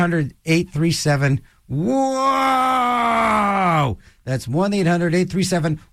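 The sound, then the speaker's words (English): A person groans while going down a roller coaster and getting dizzy, a loud, wavering moan held for about two seconds that sags at the end, with speech just before and after. “That's the sound of somebody going down a roller coaster and getting dizzy”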